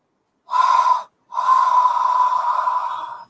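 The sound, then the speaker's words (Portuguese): Deep breaths during a breathing exercise of repeated inhalations: two steady, airy breaths, the first short and the second drawn out over about two seconds, loud and with no talk. “Então é mais ou menos isso que você faz. 10 respirações você inspira três vezes.”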